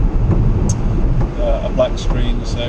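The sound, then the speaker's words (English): Steady, loud low rumble of a car driving home in the dark, road and engine noise filling the low end while a man talks over it. “I'm driving home in the dark at the moment, and it's pretty much a blank screen.”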